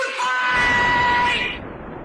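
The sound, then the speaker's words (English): A man lets out a single loud, drawn-out yell that holds steady and strained for over a second, then cuts off, leaving a low rumble of noise. “Two guys who get a little emotional when they hear John Belushi yell,”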